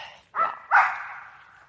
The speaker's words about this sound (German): Oh, ein normales Hundegebell. Wir laufen hier übrigens am Hundepark entlang.